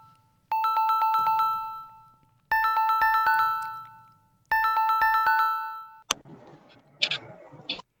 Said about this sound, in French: Un instant. On relance l'appel.